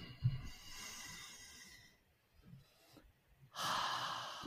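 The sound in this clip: Deep inhalations during a guided healing breathing exercise: a soft, airy breath is followed after a pause by a louder, forceful rush of air through the nose and mouth.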